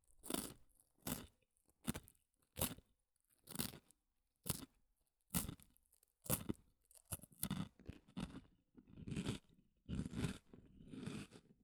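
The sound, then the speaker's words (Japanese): Crunchy stick-shaped snacks are bitten and chewed, giving many crisp, quiet crunches. They come in a fairly regular rhythm at first, then follow closer together and more ragged as chewing goes on. “スティック状のやつはサクサク楽しい音。”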